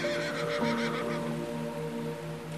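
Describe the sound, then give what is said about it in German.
Excited whinnying from dark brown unicorns, done as a horse neigh effect: a quavering tonal call with pulsing bright overtones for about a second, then steadier held tones, moderately loud with no talk. “die dunkelbraunen Einhörner auf die Feenprinzessin. Aufgeregt wiehern sie euch entgegen, während ihr an den Strand schwimmt”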